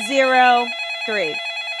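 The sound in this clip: A telephone rings for an incoming caller in two bursts of bright, buzzing ringing, a longer one then a shorter one, over a steady high tone.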